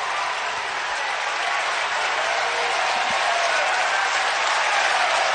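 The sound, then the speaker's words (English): Oklahoma fans cheer and applaud along the first base and right field line at a championship-series baseball game, urging on a freshman pitcher. A steady, dense roar of clapping and crowd noise holds at an even level throughout. “And now the Oklahoma fans, who are along the first base and right field line, are making noise, trying to encourage the freshman to make this a 1-2-3 inning.”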